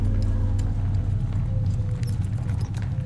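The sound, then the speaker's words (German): A closed two-horse carriage rolls through the silent streets of a country town, its wheels making a low, steady rumble under faint, rhythmic hoof clops. “Bald darauf rollt der Wagen mit den Reisenden durch die totenstillen Straßen der Landstadt.”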